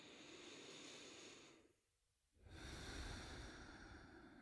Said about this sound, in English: I can slow my breath down. I can take a deeper inhale, a deeper exhale.